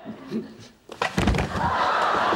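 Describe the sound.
A person misses a chair while sitting down at a table and falls to the floor, making a heavy thud after brief voices, then a sustained burst of laughter.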